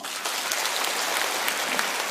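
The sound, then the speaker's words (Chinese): Audience applause breaks out during a health talk, a short burst of dense, even clapping. It is fairly loud and unbroken for about two seconds, with no voices over it. “鼓掌。”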